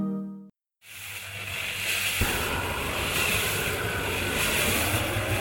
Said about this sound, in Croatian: To je zvuk bacača plamena na gas, koji puca u rotirajuću mešalicu za beton. Ali u mešalici se ne nalazi beton, već zrna kafe.